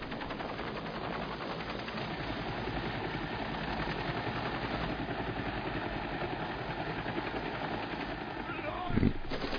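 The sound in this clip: A helicopter's dense, steady engine and rotor drone runs unbroken throughout at an even level, with a short, low thump near the very end.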